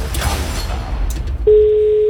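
A telephone ring signal on a call-in voting line: one steady, unbroken mid-pitched tone starts abruptly partway through and holds to the end, after a stretch of low background noise.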